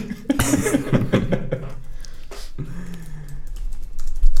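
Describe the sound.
Computer keyboard typing as someone writes a note down: a quick run of light clicky taps early on, mixed with brief vocal sounds, then quieter movement.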